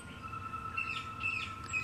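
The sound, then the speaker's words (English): Faint bird chirps outdoors in a forest clearing, about three short high calls over a steady hiss and a low, even drone. “You become aware of the birds singing and the trees rustling in the gentle breeze.”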